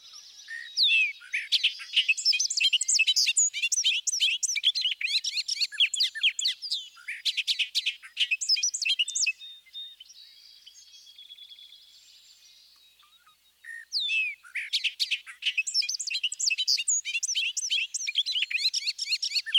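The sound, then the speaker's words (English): A bobolink sings its bubbly song, long fast phrases of jumbled, tumbling high notes, broken by a stretch of softer buzzy notes before the rapid chattering song resumes. “Listen to the bobolink's bubbly song that gains speed and complexity as it moves along.”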